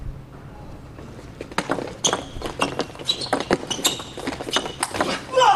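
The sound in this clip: Sharp clicks of a table tennis ball bouncing during a serve and rally in a match, many quick taps in an irregular rhythm over a quiet background.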